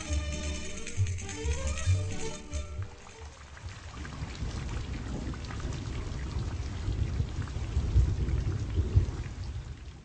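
Steady heavy rain from a thunderstorm, with a low rumble of thunder rolling beneath the dense hiss of the downpour. A brief musical passage fades out at the start.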